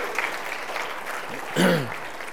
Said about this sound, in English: Yeah, can we clap for these folks? Thank you guys for